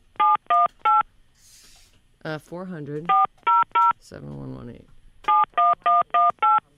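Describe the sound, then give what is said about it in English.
Keypad tones from a telephone number being dialed: three loud beeps, a voice talking, three more beeps, more talk, then a closing run of five beeps, all sharp and evenly spaced. “What's the number again? Hold on. I have it somewhere. 718. Yeah. 400. So do I dial 9 first?”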